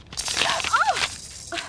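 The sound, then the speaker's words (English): Paper tearing as an envelope with no return address is ripped open: a rough, crackling rip lasting about a second, with a few brief squeaky tones mixed in. “Oh, here's a letter with no return address. Wonder who it's from. Well, I guess I could just open it up and see.”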